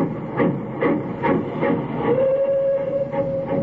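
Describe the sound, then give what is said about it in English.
A departing steam train chuffs in a steady, rapid rhythm of many puffs. A sustained held tone joins midway and carries to the end. “I stood there watching the red light of his train disappear.”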